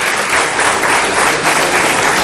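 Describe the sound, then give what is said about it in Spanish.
Loud, sustained applause from an audience responding to a political speech, a thick, continuous wash of many hands clapping that holds steady throughout without pauses or clear voices. “Fíjate atrás. ¿Viste los hay aplausos? Una señora, mira. Hacele el suma. Pará. Esta señora, la señora de rojo, ¿eh? Y los de atrás, ¿ves que te están aplaudiendo?”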